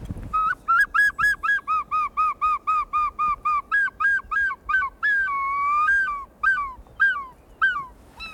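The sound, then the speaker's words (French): A person imitates the cry of a large seagull with many rapid, high, nasal yelping notes in a steady run, then a few longer drawn-out wailing calls. The calls are loud and clear with no other sounds. “Je fais le goéland.”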